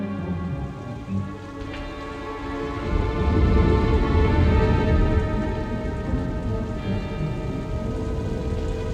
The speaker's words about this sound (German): Es regnet.